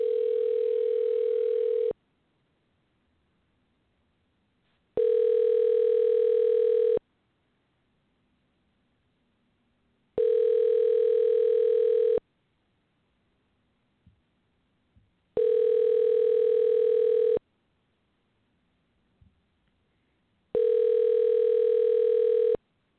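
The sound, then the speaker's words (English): Telephone line tones while dialing out on a phone: five steady, evenly spaced beeps of about two seconds each, separated by roughly three-second silences, with a few faint clicks in the gaps. “So we go deet, deet, deet, deet, deet, deet, deet, and dial out, and let's see what happens.”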